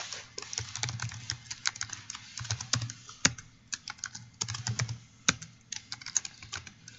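Fingers type C++ code on a computer keyboard in many irregular bursts of light clicking keystrokes, with occasional sharper, louder taps and short pauses between runs; no voices are heard.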